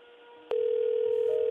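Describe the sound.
Ringing on an outgoing telephone call: a steady low-pitched tone starts abruptly after quiet line noise and holds unbroken and fairly loud to the end.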